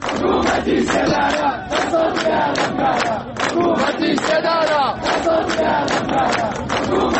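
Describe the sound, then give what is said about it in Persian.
Crowd chanting anti-government slogans at the funeral of Mahsa Amini in Saqqez: many voices shouting in loud rhythmic unison, with short repeated phrases and brief pauses between them. “شرکت کنندگان در مراسم روز شنبه شعار دادند: حکومت اعدام، دست از جنایت بردار.”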